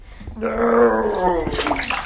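Bathwater splashes as a 3-year-old boy and a 1-year-old girl are put into their bath, a short, moderately loud burst of sloshing and swirling water.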